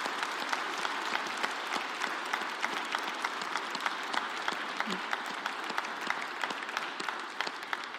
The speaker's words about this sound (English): Can you put your hands together, give a warm Calvary welcome to Carlos Evans.